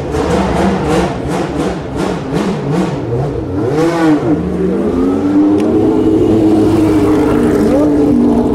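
A Formula 1 race car starts up and leaves the pit lane. Many quick, loud revving bursts lead into a sharp surge, then settle into a sustained, high engine whine that climbs gradually in pitch.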